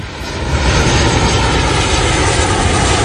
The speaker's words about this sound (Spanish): te pones el cinturón, lo aprietas un poquito más de lo necesario y entonces se escucha por megafonía. Tripulación, próximos al despegue.